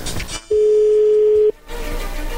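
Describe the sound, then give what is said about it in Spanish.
A steady telephone tone sounds on the line as a call connects: a single mid-pitched beep lasting about one second, loud and even, with some background noise just before and after it. “ya entró ahí la llamada, vamos a ver qué pasa con Susana”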